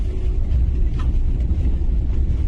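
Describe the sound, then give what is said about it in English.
Car engine and road rumble while driving past and turning around, a loud, steady, low drone without talk. “There he is. I'm driving past him again. Just turned around.”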